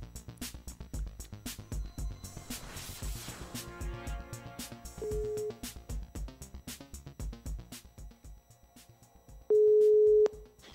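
A telephone call is being placed: a quick run of clicks and short dial tones, followed by steady ringing tones, the last one long and loud.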